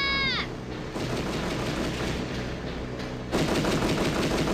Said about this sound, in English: They've got guns! Get down!